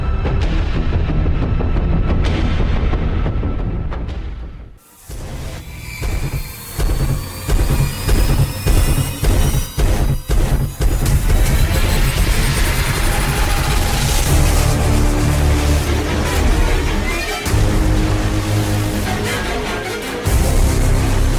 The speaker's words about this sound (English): He also did Blade Runner 2049. Mm. Here's a comparison exactly. between Blade Runner and The Invisible Man. Let's hear it. Blade Runner.